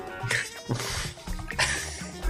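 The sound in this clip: A cat meows a few times in short, faint, high-pitched cries separated by brief pauses.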